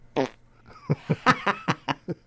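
A fart sound effect: one longer, raspy opening blurt, then a pause, then a rapid run of short, buzzy puffs at an even pace.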